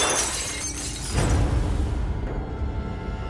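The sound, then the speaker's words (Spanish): Living room window glass breaking: a dense, noisy shattering crash that swells partway through, then thins into a fading crumbling rush. “rompiendo una de las ventanas de la sala.”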